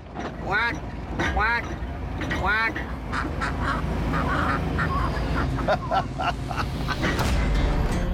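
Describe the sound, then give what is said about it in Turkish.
A voice imitates duck quacks with a few raspy, nasal quacks in the first three seconds. A steady, noisy background with scattered sounds continues after them. “Birçok insan bilmez ama ben ördek dilini biliyorum. Şimdi ördeklerle iletişim kurup çok yakında bir göletleri olacağını söyleyeceğim.”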